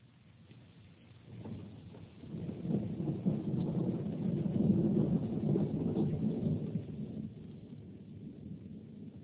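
Rain and wind with rolling thunder: a low, rumbling roar swells from a soft wash, peaks in the middle and eases back toward a steadier hiss; no voices.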